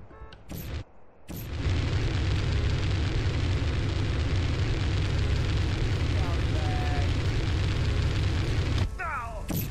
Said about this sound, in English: This is a fire generator, so let me generate some fires.